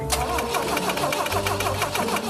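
A BMW engine cranks after a rebuild and an ignition adjustment, churning in a fast, steady rhythm for the whole stretch without catching and running.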